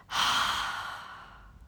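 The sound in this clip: A single long breath out, drawn during a guided breathing exercise, comes as a soft airy rush that starts suddenly and slowly fades over about a second.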